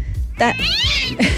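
A cat meows as a sound effect: a loud, drawn-out wail that rises and then falls, followed by a short second call.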